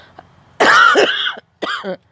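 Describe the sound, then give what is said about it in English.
Coughing from someone who is unwell: a harsh, longer cough burst followed after a short pause by a second, shorter one, heard on its own. “I am still slightly under the weather, so forgive me if I cough here and there throughout this episode.”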